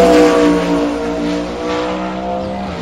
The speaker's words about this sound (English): That was the first round of racing. Then this is against the Supra, the second round of racing.